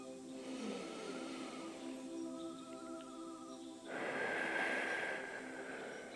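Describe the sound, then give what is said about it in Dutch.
Deep breath drawn in through the nose during a guided relaxation exercise: a long, airy inhale that swells partway through, heard over a steady tonal background with no talking. “Een keer diep adem door je neus.”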